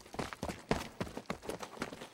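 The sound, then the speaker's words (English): Foley footsteps performed to picture for a crowd of people moving, a quiet, steady run of many soft thudding steps overlapping in an even rhythm. “All that movement of all those people. Footsteps. These are all performed by Foley artists to picture.”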